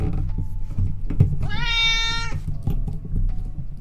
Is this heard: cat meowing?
yes

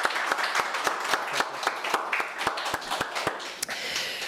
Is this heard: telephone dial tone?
no

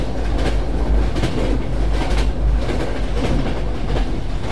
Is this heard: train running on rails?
yes

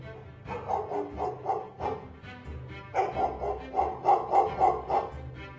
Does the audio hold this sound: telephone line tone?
no

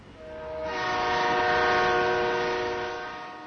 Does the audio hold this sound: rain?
no

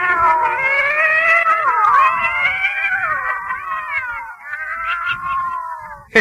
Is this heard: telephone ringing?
no

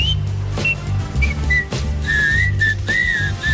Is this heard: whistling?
yes

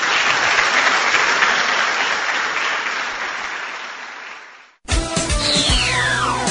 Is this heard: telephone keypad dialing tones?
no

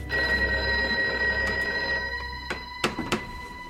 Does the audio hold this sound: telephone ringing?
yes

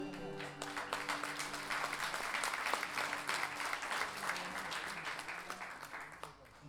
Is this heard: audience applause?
yes

